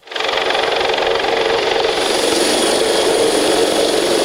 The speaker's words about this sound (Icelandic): Hátíðardagskráin hófst með miklum tilþrifum þegar þyrlagæslunar lenti fyrir utan Hörp.